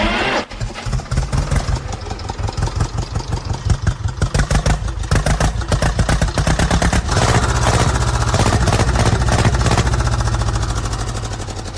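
An old tractor engine with its exhaust silencer mounted on top, gear out, catches and settles into a loud idle. It chugs in a fast, even, pulsing rhythm that holds steady until the end.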